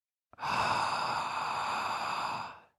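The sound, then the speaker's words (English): A single slow, deep gasping inhale through the open mouth follows a brief click and swells into a long breathy rush lasting about two seconds before fading out, then silence. “if you were to make a surprise gasping sound with your mouth like this, but much slower and deeper,”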